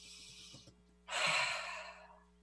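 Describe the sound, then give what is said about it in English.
A deliberate deep breath taken in: a single loud, airy inhale of about a second, with a fainter, shorter breath before it. “Taking that breath instead of this, that shallow breathing space.”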